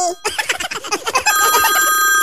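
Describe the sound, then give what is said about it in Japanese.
A telephone rings in a continuous electronic trill that follows a short burst of voice-like chirping, staying loud and even to the end. “電話鳴ってるよもしもし電話だよ”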